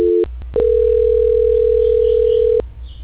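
Telephone tone during a call transfer: a brief tone, a short break, then one long steady tone of about two seconds over a low line hum.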